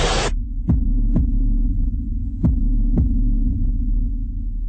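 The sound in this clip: Heartbeat sound effect of two double thumps in a lub-dub rhythm over a steady low hum, opening with a brief hiss.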